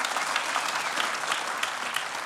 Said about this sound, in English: Come on and give the Lord a huge round of applause if you are with me.